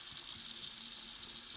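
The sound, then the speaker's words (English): Water runs from a tap to fill a bath, a steady, even hiss of rushing water with no breaks or other sounds. “And this is the sound of her drawing a bath.”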